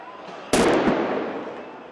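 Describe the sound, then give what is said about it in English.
A sound grenade goes off as security forces clash with youths at a protest in Ramallah, West Bank: one sharp, loud bang cuts through a low background hum and trails into a fading rumble. “In Ramallah, youths battled with Palestinian security forces who responded with tear gas and sound grenades.”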